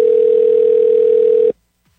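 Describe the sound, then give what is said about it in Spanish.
A telephone ringback tone after a number is dialed: one loud, steady low-pitched hum lasting about one and a half seconds, then cutting off abruptly to silence. “marcando aquí el número telefónico correctamente. Está sonando, vamos a ver si nos contesta.”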